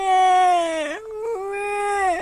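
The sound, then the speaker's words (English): A voice imitates a toddler bawling, with two drawn-out, high wailing cries. The first is loud and dips at its end, and the second is steadier and slightly softer. “Please don't get fussy, said her daddy. Well, she had no choice, so Trixie bawled.”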